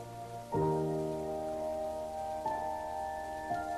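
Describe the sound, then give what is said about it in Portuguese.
Rain falling outside, a quiet, steady patter, with three ringing musical notes sounding over it. “Lá fora estava chovendo, e ela sorriu pela primeira vez.”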